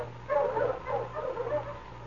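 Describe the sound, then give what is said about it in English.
Sled dogs, huskies, yipping and whimpering in a few short overlapping bursts, moderately loud over a steady low hum. “Mush, you huskies! Mush!”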